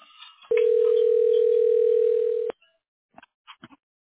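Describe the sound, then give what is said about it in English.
A telephone dial tone sounds while a cell phone number is dialed: a steady, loud, constant tone held about two seconds, then a few faint, brief tones after a short silence. “dialing your cell.”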